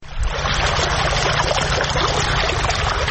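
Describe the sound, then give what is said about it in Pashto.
Water gushes from deep wells, pumped up with solar panels and machines on farmland in Sayedabad district, Maidan Wardak, Afghanistan. A constant loud rushing runs over a steady low mechanical hum. “دا د میدان وردګ ولایت په سید آباد ولسوالۍ کې د ژورو څاګانو اوبه دي چې بزګران یې د لمریزې هندارو او ماشینونو په مرسته راپورته کوي.”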